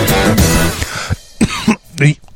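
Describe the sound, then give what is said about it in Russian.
Harsh coughing after choking on an inhaled breath, a dense rough burst at the start followed by a few sharper, separate coughs. “Извините, ради бога, я вдохнул и подавился.”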